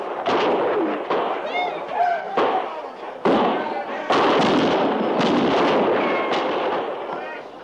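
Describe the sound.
Soldiers fire on a camp, many sharp shots and heavy thuds cracking in quick, irregular succession, loud throughout, with voices mixed in among the blasts.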